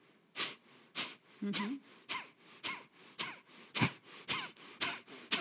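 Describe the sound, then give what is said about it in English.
Forceful exhales through the nose during a breathing exercise done standing, bent forward with hands on knees: a rapid, evenly spaced series of sharp, hissing nasal bursts, each short and strong, with quiet gaps between. “And you just start exhaling through the nose.”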